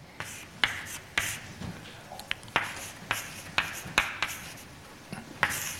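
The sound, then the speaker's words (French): Equations being written out by hand, heard as many crisp, sharp strokes and taps in an uneven rhythm over a quiet background, with faint rubbing between the marks. “et j'écris les constantes.”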